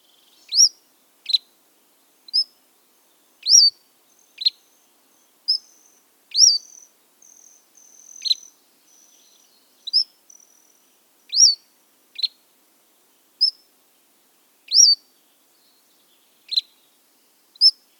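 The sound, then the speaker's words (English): Cordilleran flycatcher song: many short, thin, high chirps repeat alone at roughly one-second intervals. The notes vary slightly in shape and are separated by silence, with a few fainter, buzzier notes in the middle. “The Cordilleran flycatcher's song has three phrases. The order can be mixed up. The first phrase is sweet, the second notably lower and raspier, and the third is incisive and higher in pitch.”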